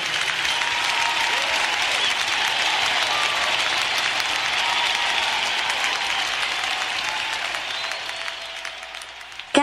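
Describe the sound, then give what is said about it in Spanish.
Sustained applause for a king, thick and even clapping that carries for most of the stretch before thinning out and tapering off near the end. “Aplaudilo fuerte al rey.”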